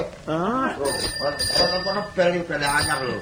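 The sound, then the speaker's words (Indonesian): A new bicycle bell rings out in sustained, high metallic tones, sounding in two stretches under loud, overlapping talk from nearby voices. “Ono bel anyar lho. Bel anyar iki.”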